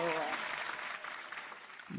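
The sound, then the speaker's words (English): A canned applause sound effect plays faint and muffled as a steady wash of clapping, with a voice heard briefly at the start and again at the end. “Throw some claps on from PJ Dakota. Or some cheers.”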